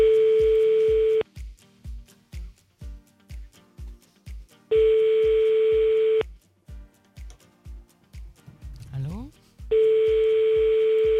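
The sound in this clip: Telephone line tones sound as a call is placed: three long, steady, high beeps separated by pauses. A regular low thumping beat runs underneath throughout.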